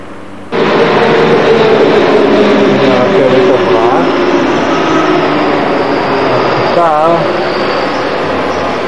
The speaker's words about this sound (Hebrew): וזאת תחנת הרכבת של טראונקירכן לידינו.